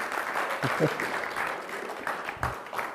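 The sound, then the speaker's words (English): Audience applause as a speaker is welcomed to the stage, a steady, moderately loud clapping with voices mixed in throughout. “Okay, everyone, we're going to welcome Wiley to the stage. Just give him a hand as he comes up.”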